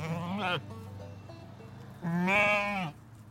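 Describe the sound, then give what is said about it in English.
A sheep, of a breed raised for wool, bleats twice: two wavering, nasal cries with a quiet pause of more than a second between them, the second longer and slightly louder. “one creature. Sheep. They're bred especially for their wool.”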